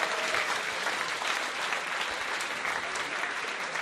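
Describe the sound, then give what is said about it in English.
Dense audience applause fills the whole stretch, a steady, loud wash of many hands clapping with no pause and no voice rising above it. “ladies and gentlemen, give him a lovely round of applause”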